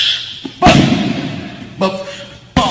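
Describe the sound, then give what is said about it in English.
Heavy thuds of kicks landing, thrown by a 50-year-old man: three sharp, loud impacts, each ringing briefly before it fades, arriving at uneven intervals. “This is a 50-year-old man throwing kicks. Again, boom.”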